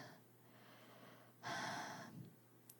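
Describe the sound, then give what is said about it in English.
Heavy breathing into a microphone: one loud, rushing breath stands out midway through an otherwise quiet stretch of soft breath noise, over a faint, steady low hum. “breathing heavily into one microphone, and I have the other one down on the floor.”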